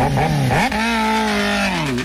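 A motorcycle engine revs hard, its droning pitch climbing sharply, then holding high and steady before easing slightly at the end, loud and alone with no voices.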